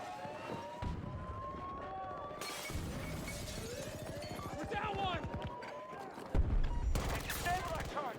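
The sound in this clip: Gunfire in a multiplayer shooter video game, with rapid bursts of shots and crackling impacts mixed with other game effects, fairly faint, growing busier and louder toward the end.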